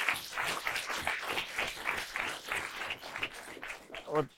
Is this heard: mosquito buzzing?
no